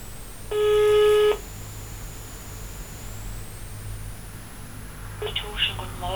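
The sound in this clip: Telephone tones as a call is placed to a city office: one long, steady beep early on, then a quick run of short dialing tones near the end, all over a constant low rumble of background noise.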